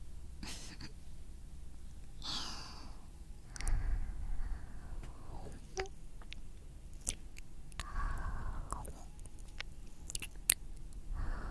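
Binaural ASMR ear-nibbling mouth sounds from a 3Dio microphone: soft, wet smacks, licks and nibbling clicks at irregular intervals, quiet overall with a few sharper pops.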